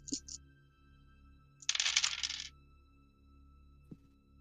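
Dice rolled for a Vampire tabletop role-playing game clatter in a short burst of about a second, preceded by a couple of small clicks and followed by a single light tap.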